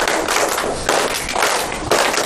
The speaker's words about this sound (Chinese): 那我们先把掌声送给六位，然后我们一起来再练一次啊。